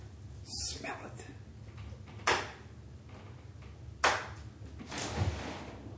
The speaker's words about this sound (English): So, while I'm gagging to death, I said open a window. It's like, alright. Open it.